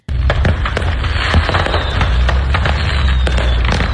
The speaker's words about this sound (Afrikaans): 'n vragmotor wat vuurwerke vervoer het, het aan die brand geslaan. En dit was nou wel daglig, maar motoriste kon daarom kyk hoe die vuurwerke afgaan